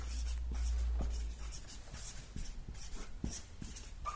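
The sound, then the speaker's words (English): A scripture's name is written up on a board in faint scratching strokes, with a few soft taps over a low hum at the start. “Let's write that up.”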